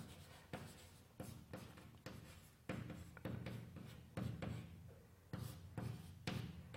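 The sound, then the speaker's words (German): A pen scratches on paper as letters are written, making a quiet run of many short strokes with brief pauses between them. “Schreib da mal AP hin, sicherheitshalber.”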